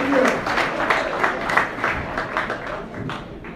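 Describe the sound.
Steady audience applause greets a comedian at a show in Philadelphia. Dense, even clapping holds throughout, with crowd noise mixed in.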